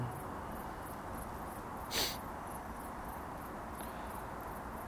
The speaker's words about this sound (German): Hörst du, wie die Grillen zirpen?